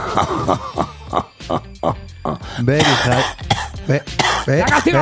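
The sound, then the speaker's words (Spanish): A person coughing, with a run of loud, rough, harsh bursts and throat-clearing sounds. The bursts are mixed with voiced, grunting noises and continue throughout. “Ahí está tosiendo”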